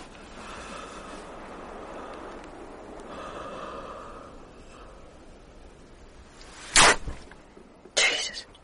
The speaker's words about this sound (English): That was the sound of your dog's throat being cut.